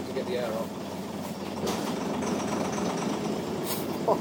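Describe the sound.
A vehicle engine revs to build up air pressure, a steady rumbling drone that holds throughout with people talking over it.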